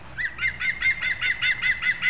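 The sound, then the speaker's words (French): Green woodpecker call: a rapid series of loud, clear, ringing notes repeated at an even rhythm throughout, bright and slightly harsh in tone, with no voices. “je suis un pic vert et j'habite un nid dans le noyer”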